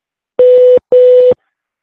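Two keypad beeps from a psychic hotline phone menu, each a steady mid-pitched tone lasting about 0.4 seconds, separated by a short gap and followed by silence.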